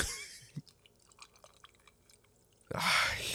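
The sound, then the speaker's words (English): Gulping down a drink: faint wet clicks and small swallows for a couple of seconds, then a sudden loud, broad rush of breathy noise to finish. “Let's hear the gulp. mm, some ASMR for you.”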